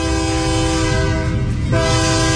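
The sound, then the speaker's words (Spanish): A loud train horn blasts without a break, a steady chord of layered tones held through the whole clip with a brief dip near the end, over the low rumble of the passing train. “Deja que suene el tren”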